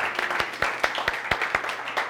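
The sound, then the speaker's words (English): A church audience clapping their hands together in a steady, even rhythm, many claps in unison over a wash of crowd noise. “And would you give just a big hand clap for our children's ministries? Come on.”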